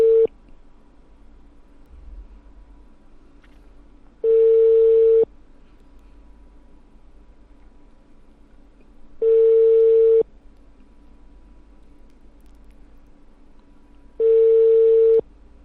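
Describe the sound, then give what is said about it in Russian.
Telephone ringback tone on an unanswered call: three long, steady mid-pitched beeps about five seconds apart, the tail of another at the very start, with quiet line hiss between them. “пока не берут. Абонент не отвечает или временно недоступен.”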